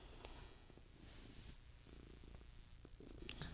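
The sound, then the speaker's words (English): A cat purrs loudly and steadily, a faint, low, continuous rumbling with a slight pulsing texture and no talk. “my cat's really loud.”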